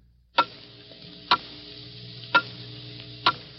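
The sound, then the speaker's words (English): A clock ticks four times at an even pace, roughly a second apart. Each tick is a crisp, sharp click over a faint steady hum. “Hear it? Those are the last fading moments of 1950. The clock is steadily counting them out.”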